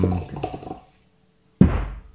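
Water poured aggressively from a water bottle, a sudden loud splashing gush that bursts in after a pause and quickly fades. Softer low knocking and sloshing come before the pause.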